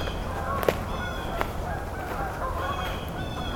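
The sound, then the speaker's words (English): Canada geese from a flock of about seventeen honk near a forest: a few nasal honks stand out over a steady background hiss, with short gaps between the calls. “We've got some Canada geese here.”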